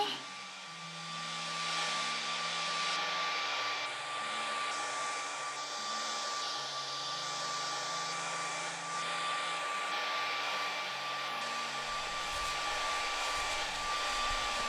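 A hair dryer blows on someone's hair with a loud, steady whirring drone that runs the whole time and shifts slightly in tone, without talk.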